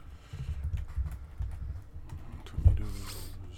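Computer clicks and keyboard taps while searching a website: several soft, dry clicks over a steady low hum, with one sharper click near the end.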